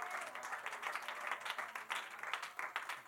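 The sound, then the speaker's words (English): A church audience clapping their hands together in a continuous, slightly uneven patter of many claps, moderately faint, with a low steady hum beneath and no voices. “Why don't you clap your hands to the Lord real”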